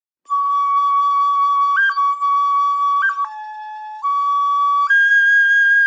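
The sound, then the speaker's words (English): A flute recreating an ancient instrument plays a clear, pure, sustained tone, with brief trills flicking up to a higher note, then steps down to a lower note and climbs to a higher held note at the end. “When the flautist starts doing that trilling thing, I was like, oh, okay.”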